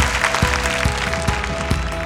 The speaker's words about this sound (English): If you believe it, give God a hand clap of praise.